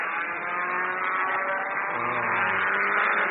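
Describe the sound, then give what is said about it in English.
Car engine accelerating hard with the pedal floored, a dense, buzzing roar with a strong harmonic drone that holds loud and continuous for the whole stretch, with no talking. “Let's switch the headlights off and ram the pedal to the floor.”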